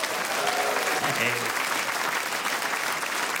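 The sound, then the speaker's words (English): An audience applauds to welcome guests from a show at the Edinburgh Fringe. The clapping is steady and full throughout, with some voices briefly audible over it. “Please give them a warm welcome.”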